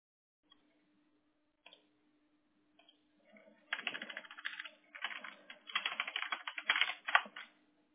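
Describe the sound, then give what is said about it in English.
Typing on a computer keyboard, starting with a few isolated clicks, then quick bursts of rapid keystrokes broken by short pauses, over a faint, steady low hum. “Let me just type it in.”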